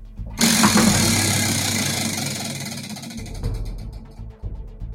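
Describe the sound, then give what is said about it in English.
A prize wheel spins during a game segment: a loud whirring rattle bursts in, fades gradually, then breaks into separate ticks near the end as it slows. “Let's spin the wheel.”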